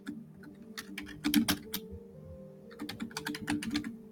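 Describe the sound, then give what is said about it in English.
Fingers type on a computer keyboard in two quick bursts of light clicking separated by a short pause, faint over a low steady hum. “So I can type the name in just so you have the actual spelling.”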